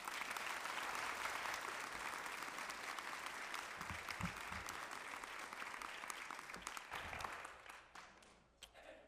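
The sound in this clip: Faint, dense audience applause greeting a guest speaker as he is introduced. Steady clapping runs throughout and tapers off at the very end.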